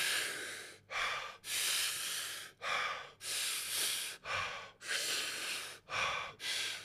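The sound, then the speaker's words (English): Deep breathing during a breathing exercise: many quick, forceful, airy breaths in a steady rhythm, each a loud hiss separated by brief pauses, with no talk. “Inhale. Inhale. Inhale. Inhale, relax.”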